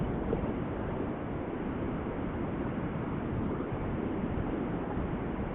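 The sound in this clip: Low, continuous road and engine rumble comes from a car being driven while its driver is on a group call. The dense, muffled noise stays even throughout, with no distinct events or voices.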